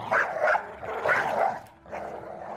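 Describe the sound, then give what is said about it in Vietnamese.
Dog barking: a café owner's vicious dog barks nonstop at a woman as if mad. Three loud, rough, snarling bursts follow one another with short gaps, alone without talk. “Chỉ biết mỗi lần hãy gặp nó đều như là chó điên không ngừng hướng về phía Cẩm mà sủa.”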